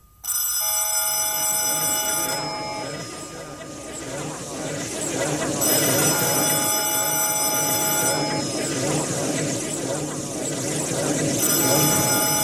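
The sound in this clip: A telephone rings in repeated bursts of bright, shrill bell tone separated by pauses, over a steady murmur of background noise.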